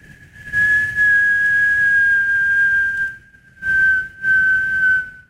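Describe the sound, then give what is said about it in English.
A person whistles to imitate a pine cone falling from the top of a redwood tree: one long, high, steady tone that drifts slightly lower, then two shorter whistles after a brief pause. “And it was an acorn or something falling. No, it was a pine cone. A pine cone. Yeah. Falling from the top of one of those redwoods.”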